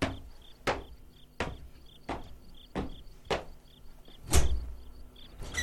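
Door sounds: a run of sharp, evenly spaced knocks or clatters ends in one heavier, deeper thud, while crickets chirp steadily throughout.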